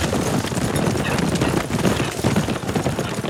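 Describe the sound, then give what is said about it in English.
Hooves of many horses drumming as a mounted posse rides out, a dense, continuous clatter of galloping steps blending into a steady rumble at even loudness. “The 7th Slash crew and hired guns rode out.”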